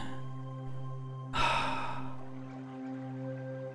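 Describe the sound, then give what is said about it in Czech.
A single deep exhale during a guided breathing exercise, a breathy rush that begins abruptly and tapers off over about a second, set against a soft, steady sustained drone. “Vydechněte.”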